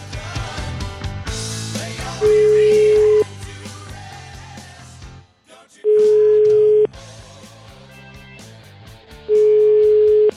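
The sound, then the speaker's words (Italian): Ringing tone of a telephone call being placed: three long, steady, evenly spaced beeps at one unchanging pitch, each about a second long, sounding over loud background music. “Proviamo a chiamare Sgarbi, eh? Proviamo a chiamare Sgarbone, vai!”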